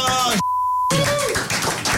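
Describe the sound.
A censor bleep covers a swear word, a single steady pure tone lasting about half a second that cuts cleanly into continuous speech, with talk heard right before and after it.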